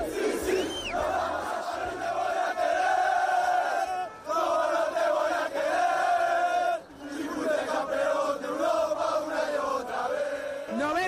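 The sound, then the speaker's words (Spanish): Real Madrid football fans cheer and chant at the Bernabéu after a match: loud, sustained crowd voices carry sung, chant-like tones that rise and fall, with two brief dips before the roar resumes. “¿Cómo estaba la gente tras el partido? Alternando vítores, alternando opiniones, el público desatado.”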